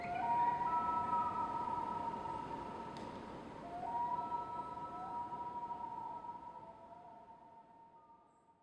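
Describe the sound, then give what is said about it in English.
A loon calls in northern Minnesota, a long, clear, wailing tonal note held steady and fairly quiet. It breaks to a slightly higher sustained note before slowly fading, heard alone. “This is the sound of a loon call in northern Minnesota.”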